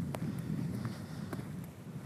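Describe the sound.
Footsteps of someone walking past small youth sports fields on a cold day after heavy rain. A few faint, irregular steps sound over steady low outdoor noise.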